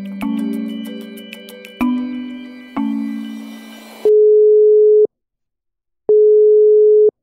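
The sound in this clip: Telephone ringback tone while calling someone, two long, steady, mid-pitched beeps separated by silence, preceded by three struck, ringing musical notes.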